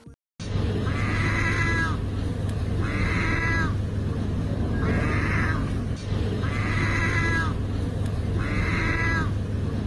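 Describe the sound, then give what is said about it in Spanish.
A seagull imitating a cat's meow gives five evenly spaced, meow-like cries, each a clear harmonic call with a slight arch, repeated over a steady low hum and background noise. “esta gaviota aprendió a maullar o a imitar el sonidito de un gatito. Y entonces el aparatito le da croquetitas a la gaviota.”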